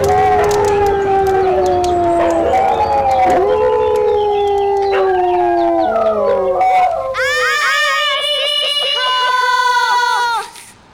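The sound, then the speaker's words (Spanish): Howling from the neighbours' dogs: long, wavering tones that overlap and keep on loudly without a break, shifting to higher, more broken yelping howls near the end. “Los perros de los vecinos empezaron a ladrar.”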